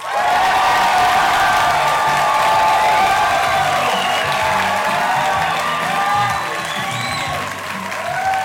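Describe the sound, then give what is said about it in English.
A large crowd cheers and applauds as a comedian is welcomed onto a stage, a dense, loud, sustained roar of clapping mixed with whoops and shouts that holds steady throughout. “Oh, they're stomping! They're stomping!”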